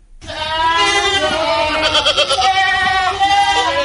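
Goats bleating: improved-breed goats aged six to seven months and weighing about 35 kg, imported from Australia to a farm in Nawalparasi, Nepal. Loud, sustained, overlapping high bleats run almost without a break.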